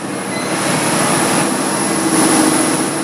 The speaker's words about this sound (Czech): Tady uvidíme kogenerační jednotku, neuslyšíme se, takže zase výkon 330 kW elektrický, 405 kW výkon tepelný a 100 decibelů hluk.